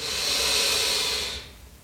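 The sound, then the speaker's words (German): A single deep breath in during a guided breathing exercise: a long, steady, airy hiss that fades away at the end, heard alone. “Und zum Abschluss nimm noch einen tiefen Atemzug.”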